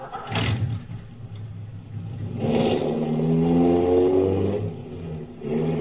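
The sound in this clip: A car engine drives along a road. After a brief early burst, the motor revs up with a rising, steady hum that holds strong through the middle, then eases back before picking up again near the end.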